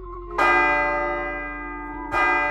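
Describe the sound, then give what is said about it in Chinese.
A clock bell in a room chiming with a deep, dull tone: two struck strokes, each ringing out in a long resonant decay, the second arriving well after the first has faded. “正当他准备起身时，一道沉闷的钟声陡然响起，”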